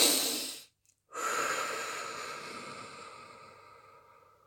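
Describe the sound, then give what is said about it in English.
Deep breathing: one breath, a short silent pause, then a long, slow, airy breath that gradually fades away over several seconds. No talking. “Take a minute, all right? Breathe deeply.”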